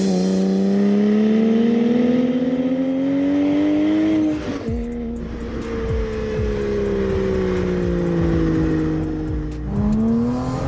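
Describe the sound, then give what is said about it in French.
A car engine revving hard and accelerating through a loud exhaust. The note is a strong harmonic drone that rises in pitch, drops sharply at a gear change, climbs again, dips once more, then surges back up. “Alors le premier constat, ça chante de folie. Franchement, l'échappement là, c'est du grand kiff.”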